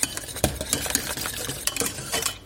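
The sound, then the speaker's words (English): A whisk clicks and scrapes against a pot as salt flakes are whisked into a hot mixture. The taps are soft and irregular, with quick metallic ticks and stirring swishes. “I'll start by adding a pinch. Just crumble it between your fingers, crumble those flakes in. And then whisk it in.”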